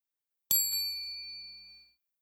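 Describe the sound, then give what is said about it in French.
A small bell chimes as a signal to turn the page: one bright, high metallic ding that rings on and fades slowly over about a second and a half, alone with no voices. “Au son de la clochette,”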